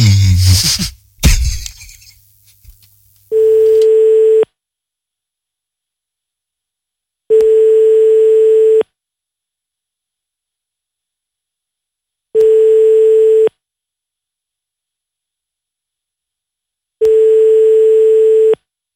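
An outgoing phone call gives its ringing tone as four long, steady mid-pitched beeps with even silent gaps of a few seconds between them. A short burst of clattering noise comes first.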